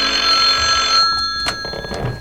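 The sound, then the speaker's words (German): A telephone rings with a bright, steady electric bell for about a second, then the ringing cuts off, leaving quieter background sound. “Einige Stunden später klingelte bei Beefy Tremaine das Telefon.”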